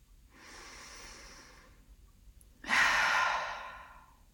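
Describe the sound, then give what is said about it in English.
A deep, slow breath during a guided relaxation exercise: a soft, hissing inhale of over a second, a short pause, then a louder, airy exhale that fades out. The breathing is quiet and heard alone. “Keep your eyes closed and let's take another deep, slow breath together.”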